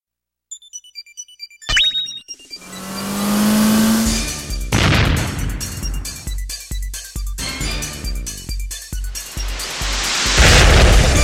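Bomberman Generation video game intro sounds: a few quick beeps, then a swelling, roaring whoosh and a run of rapid rhythmic bursts that builds to a loud, noisy finish.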